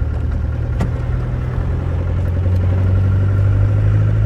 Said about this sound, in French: on roule dans la garrigue. Là, on va sur le plateau, là-haut, Fagueras.